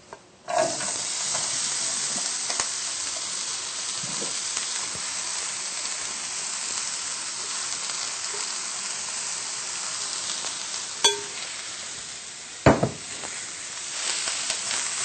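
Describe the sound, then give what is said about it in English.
Marinated vegetables stir-fry in a large skillet or wok heated on high until very hot, giving a continuous, even sizzle and hiss throughout, broken by a few sharp clacks near the end. “We'll stir fry this for 6 to 8 minutes until the vegetables are tender yet crisp.”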